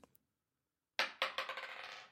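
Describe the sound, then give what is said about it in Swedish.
Dice rolled from a felt-lined faux-leather dice cup give a sudden burst of rattling clatters that bounce and fade as they settle, after a near-silent opening with a couple of faint clicks. “Här är då en tärningsburk i konstläder. Sådär med filt på insidan. Med filt klädd på insidan. Och så slår vi.”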